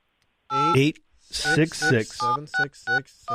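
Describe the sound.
Telephone keypad dialing tones ring out as a quick run of short, bright beeps with brief gaps between them, loud and alone.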